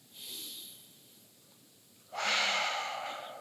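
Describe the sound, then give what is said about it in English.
An audience in a room takes a deep breath together: a soft, drawn-out inhale followed by a pause, then a louder, longer breathy exhale, with no talking. “I need everyone in the room and everybody online and everybody in Boardman to take a deep breath.”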